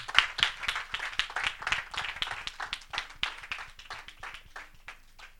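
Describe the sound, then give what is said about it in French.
A church audience claps during a worship service: many quick, sharp hand claps in a dense, steady pattern at a fairly even loudness for the whole stretch, with no voices over it. “On va acclamer Dieu pour la vie de son serviteur, le frère Pascal Kouakou.”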